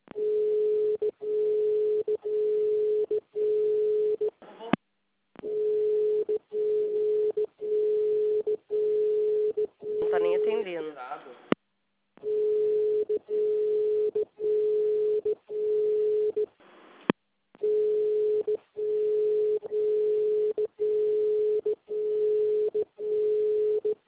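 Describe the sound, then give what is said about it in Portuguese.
A ringback tone sounds on a telephone call that nobody answers: a steady mid-pitched tone pulsing in many short, evenly spaced bursts. The tone stops briefly a few times, and a warbling interruption appears partway through. “Eu vou ligar de novo, porque ela não está atendendo.”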